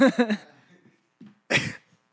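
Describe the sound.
A person imitates choking, as if their throat is closing: a few short, strained voiced gasps, then a pause and a louder, harsh rasping burst.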